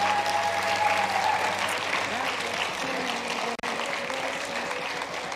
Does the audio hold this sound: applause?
yes

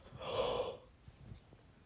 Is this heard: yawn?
yes

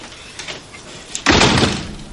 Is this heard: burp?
no

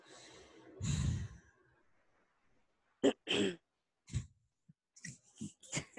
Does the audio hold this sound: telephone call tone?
no

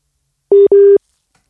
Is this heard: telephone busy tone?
yes

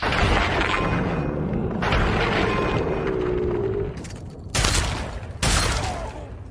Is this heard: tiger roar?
no

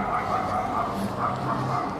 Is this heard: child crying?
no

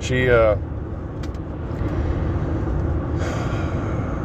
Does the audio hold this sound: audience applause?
no

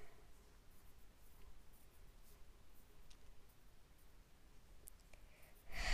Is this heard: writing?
yes

